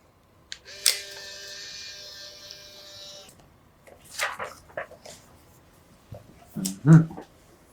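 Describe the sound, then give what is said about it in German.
A camera snapping a quick photo: a sharp shutter click followed by a steady mechanical whirr lasting a couple of seconds, then a few scattered clicks and handling noises. “Und bevor Sie sich eintragen, machen wir noch ein schnelles Foto.”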